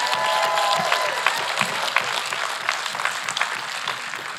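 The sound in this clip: Audience applause at a church service greets the Boardman campus: steady, dense clapping with a few cheers, easing slightly toward the end.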